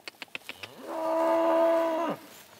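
A single long moo from cattle on an early-summer pasture, deep, steady and resonant, preceded by five soft clicks.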